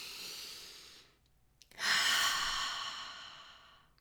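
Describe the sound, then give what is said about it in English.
A person takes a deep breath: a soft breathy sound, a short quiet pause, then a louder, long airy breath that slowly fades away. “If you just take a breath”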